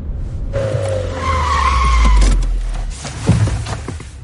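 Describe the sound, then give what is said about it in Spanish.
A car skids to a stop, its tires squealing in a tonal screech over a deep engine rumble. The sound swells to a peak midway, then eases into rougher low noise with a brief thump near the end. “Para, para el coche.”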